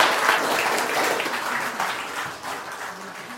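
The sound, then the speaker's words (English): An audience applauds in welcome of a speaker. The clapping is brisk and scattered but sustained, easing slightly in loudness toward the end. “put your hands together and welcome Lord Briggs”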